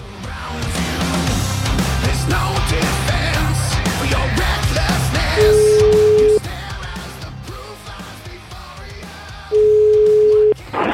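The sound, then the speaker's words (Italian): A telephone line tone while a call is being placed: two steady, flat, mid-pitched beeps, each about one second long and spaced about four seconds apart, over a loud, dense background. “Io voglio chiamare questo signor Moncalvo”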